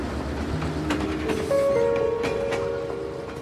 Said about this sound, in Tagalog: Huminto na ang LRT sa Abad Santos Station. Bumukas ang pintuan ng mga bagon